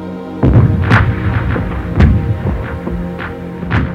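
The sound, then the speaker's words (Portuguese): Massive artillery bombardment ahead of an offensive against the Gustav Line: many deep, loud booms and thuds, irregularly spaced and overlapping, over a continuous low rumble. “um bombardeio de artilharia maciço antecedeu a ofensiva e logo o ataque contra a linha Gustav estava em movimento.”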